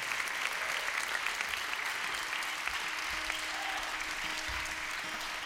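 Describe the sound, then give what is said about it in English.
Audience applause greets an accordion player being welcomed on stage, a dense, steady clapping that continues without a break. “How about a hand for Jesse?”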